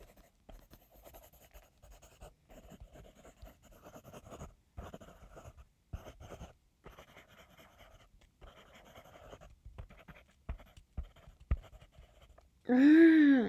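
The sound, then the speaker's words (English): Pen scratching on paper while someone writes a letter: many short, uneven strokes and scrapes across the whole stretch, ending in a brief loud tonal burst. “I'm going through all this effort to write him this stupid letter.”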